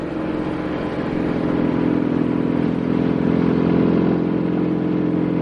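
Two Guardia Civil police motorcycles ride along a road behind a cash transport truck, their engines giving a steady, loud droning rumble with rattling mechanical clatter that swells a little and holds throughout.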